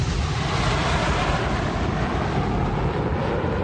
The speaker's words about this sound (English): That's a jet mine. I love that one. I actually enjoy that sound. What? That's a plane